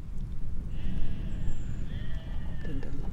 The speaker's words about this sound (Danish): Lammene kalder tilbage inden fra stallen. De laver en lyd, som lyder lidt som et spørgsmål. Men det kunne også betyde, mor.